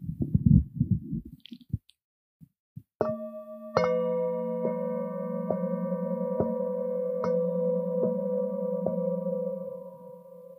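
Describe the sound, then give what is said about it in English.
Several singing bowls struck together, building layered, sustained ringing tones that hum and shimmer, with repeated soft strikes at a steady pace after some brief rumbling handling noise at the start. “So now I'm just going to play all the different singing bowls together for you, just so you know what it sounds like or can hear what it sounds like.”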